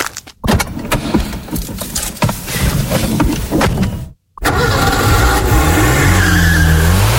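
A Renault Clio car drives hard with loud tire squeal and skidding noise. After a brief silent gap, a loud engine revs with a climbing, wavering pitch.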